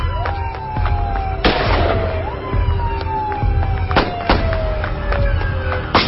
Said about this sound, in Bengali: সাসপেক্টের গায়ে গুলি লেগেছে, সে বেশি দূর আগাতে পারবে না।